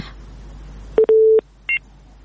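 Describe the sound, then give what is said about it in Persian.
Telephone tones as a listener's call drops: a short beep, then a longer steady tone, then after a brief gap a higher, shorter beep, all alone and fairly loud. “بله، تماس شنوندی ما محمد عارف رحیمی قطع شد.”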